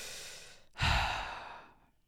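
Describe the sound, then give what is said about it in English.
A deep breath: a quiet, airy intake flows into a loud, sighing exhale that gradually fades away, heard alone. “Let's take a deep breath again.”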